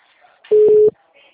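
A telephone ringback tone sounds during an outgoing call: one steady, mid-pitched electronic beep of under half a second, loud and clean against near silence.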